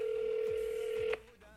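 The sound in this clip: A telephone call being placed late at night gives a faint, steady single tone that holds for about a second, then cuts off abruptly.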